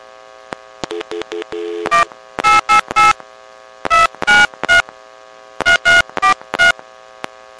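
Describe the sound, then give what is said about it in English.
Touch-tone beeps as a telephone number is dialed over a steady line hum. A few faint clicks and tones come first, then three quick runs of loud beeps, with short pauses between the runs. “I'm going to go ahead and switch over and dial this.”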